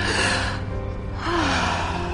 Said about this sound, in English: Let's take some deep breaths, okay?